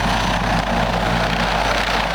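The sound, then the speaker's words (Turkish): A T-129 ATAK attack helicopter's rotor and turbine drone, loud and continuous with a low, steady throb throughout and no voices. “T-129 Atak helikopteri,”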